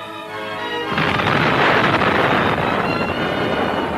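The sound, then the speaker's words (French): Roaring blast of the first atomic bomb test, set off at night in the New Mexico desert: a faint low rumble gives way to a sudden, loud, broad roar that holds steadily until the end. “La possibilité enfin découverte de diviser l'atome au moyen d'un neutron permit la naissance de la bombe atomique. C'est dans les déserts du Nouveau-Mexique qu'eut lieu de nuit la première expérience.”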